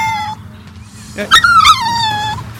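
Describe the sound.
A man's voice imitates kittens mewing, a few thin, whiny, wavering cries with sliding pitch. A longer drawn-out mew comes near the end over a low background hum.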